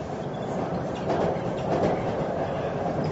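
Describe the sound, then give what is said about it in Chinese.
A westbound passenger train carrying young travellers toward Xinjiang in 1966 rolls along as a steady, dense rumble, swelling slightly twice along the way with no voices over it. “第一次踏上西去的列车”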